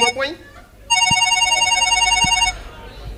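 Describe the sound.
A telephone ringing: a brief voice, then one sustained, bright electronic trill lasting about a second and a half before it cuts off.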